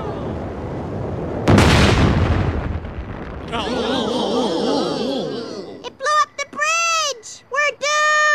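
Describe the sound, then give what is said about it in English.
A rocket is fired with a sudden loud blast that swells into a long roaring rush. Voices follow at the end. “Dad, they're firing the rocket.”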